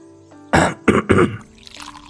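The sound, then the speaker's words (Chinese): An old man clears his throat with a rough cough: three harsh bursts in quick succession, loud and alone against a quiet background. “太师咳嗽了一声，似乎有话要说”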